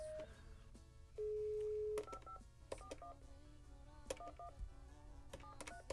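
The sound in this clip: A telephone call is being dialed: faint touch-tone beeps, then one long steady tone, followed by further clusters of short key tones and clicks.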